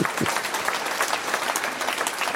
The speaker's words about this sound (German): Übrigens darf ich das hier sagen, wenn der Applaus zu enthusiastisch wird.